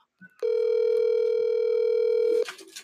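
A telephone on a call goes unanswered, sounding one loud, steady, single-pitched tone that lasts about two seconds, with faint clicks just before and after it.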